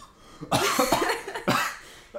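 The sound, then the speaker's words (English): Coughing after choking on saliva: two harsh, loud coughing fits, each with several quick rasping bursts, separated by a short pause. “I like choked on my own saliva.”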